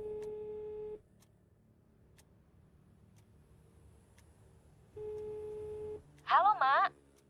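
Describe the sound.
Ringback tone of a telephone call being placed: two one-second steady tones separated by a long silence, then a brief wavering voice at the end.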